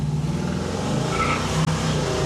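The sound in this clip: A car drives along with a steady, moderate low engine hum and road noise. A single brief click sounds near the end.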